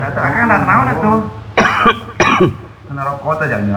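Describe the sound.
A person coughs twice in two harsh, loud bursts. Groaning vocal sounds come before and after the coughs.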